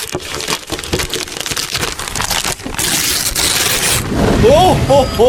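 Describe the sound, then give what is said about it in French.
Paper crinkles and tears as a wrapped gift is opened, a dense, continuous rustling that carries throughout, with a voice speaking briefly near the end. “Allez, on ouvre le cadeau numéro 1.”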